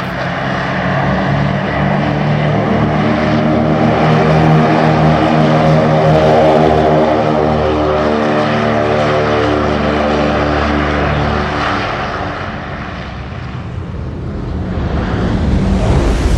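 Loud, steady droning from the engines and propellers of a B-24 Liberator bomber, with a deep harmonic hum. The roar eases slightly near the end, then swells again.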